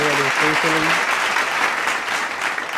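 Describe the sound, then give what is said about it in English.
Applause from a crowd rises into a dense, even wash of clapping that lasts to the end, with a brief voice heard at the start. “Can we just clap it up?”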